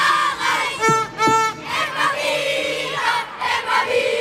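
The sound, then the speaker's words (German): A crowd in a sports hall erupts in cheering and singing after a goal, loud shouts and whooping voices in pulsing bursts over a dense background roar. “Ihr könnt euch nicht vorstellen, wie sich die da gerade freuen. Also die Turnhalle wird da ihrem Namen alle Ehre. Da sind jetzt Runden gedreht worden im Freudestaumel. Alle aufgesprungen auf einmal nach der Enttäuschung von vorher.”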